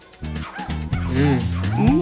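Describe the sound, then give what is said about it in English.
Dogs bark and yelp while chasing a person through an apartment and up the stairs. The barks are repeated and overlapping, with whining, pitch-bending yips that build in loudness. “The dogs continue to chase Tom through the apartment. They follow him up the stairs.”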